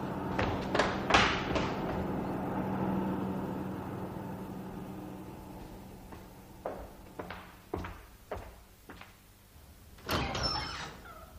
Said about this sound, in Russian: Какой-то автобус вдали исчезает. Автобус уходит.